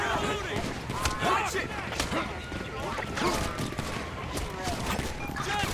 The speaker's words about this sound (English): Assault shotgun. Northeast.